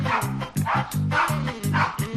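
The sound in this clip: A yard dog barks in a quick, regular series of loud, full-bodied barks that run through the whole clip with only brief gaps between them.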